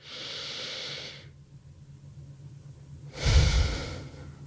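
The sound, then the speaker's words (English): A slow deep breath taken during a guided relaxation: a long airy inhale, a quiet pause, then a louder, rushing exhale with a breathy low rumble. No voices. “So take a moment now, pause, take a deep breath with me.”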